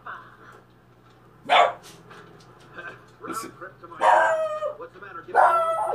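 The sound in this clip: A dog barking a few times, with sharp, loud bursts separated by quieter stretches of mixed background sound.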